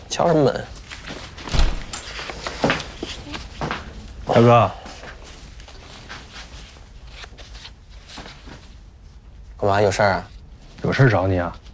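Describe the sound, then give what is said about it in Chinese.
A few sharp knocks on a door, spaced apart by pauses, with voices speaking briefly between and after them. “进来啊，敲什么门？”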